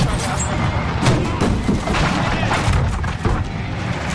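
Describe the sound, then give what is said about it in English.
Gunfire hitting a truck in a video game: a dense, continuous barrage of cracks and heavy thuds, loud and rough, with sharper impacts standing out now and then. “I told you you're going to get shot at. I knew this truck was going to get shot.”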